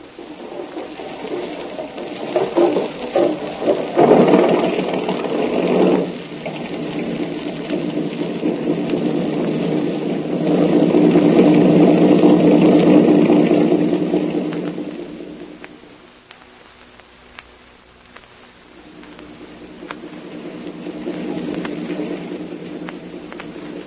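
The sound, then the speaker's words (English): Boat motors start up and run, a rattling mechanical drone that surges around four seconds and swells strongly again from about ten to fifteen seconds. It then sinks low and builds back steadily, alone with no voices. “Kanza! Kanza, start the motors.”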